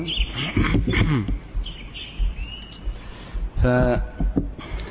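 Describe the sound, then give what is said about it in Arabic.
Sparrows chirping: a few thin, high tweets sit mixed with a person talking steadily over them. “هذا صوت العصافير”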